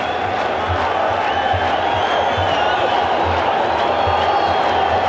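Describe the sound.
A stadium crowd cheering at a Qatar versus Switzerland football match, a loud, continuous roar of voices and cheering that holds steady throughout as the home side attacks.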